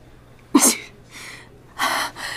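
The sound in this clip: A man sneezes a few times at a table in a drinks shop in a shopping mall while he has a slight illness. The first sneeze is a sharp, loud burst, followed by softer breathy bursts and a longer, stronger one near the end.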